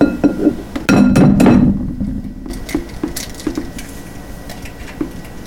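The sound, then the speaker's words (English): Large eggs cracked one after another against a hard edge, a few sharp taps and glassy clinks followed by fainter clicks and soft wet squishes, with no voices. “I have my 6 eggs ready. I just need to crack them all.”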